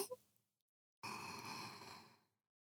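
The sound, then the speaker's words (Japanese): One long deep breath, a soft, airy rush of air lasting just over a second after a short quiet pause, heard alone without talk. “今のうちに深呼吸です。”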